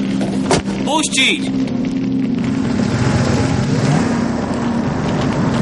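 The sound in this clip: A car drives off through a guarded checkpoint at a mansion gate: a steady, mid-pitched engine rumble with road noise that stays loud and even throughout.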